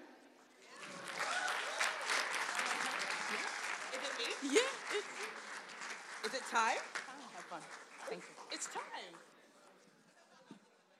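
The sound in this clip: Audience applause welcomes a singer onto the stage at a concert. Dense, steady clapping swells quickly and holds for several seconds, with scattered cheers rising above it, then thins out and fades.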